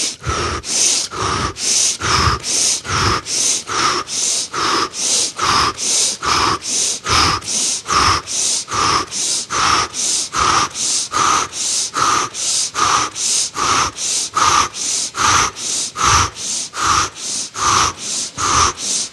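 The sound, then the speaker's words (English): Rapid, rhythmic breathing, drawn in through the nose and pushed out through the mouth, with many quick, evenly paced breaths repeating without pause and no talk over them. “breathe in through the nose, out through the mouth 30 times in very rapid succession, and then I'll be in touch with more instructions after we do that. Okay, so ready, and you can listen to my rhythm for knowing about how fast to go.”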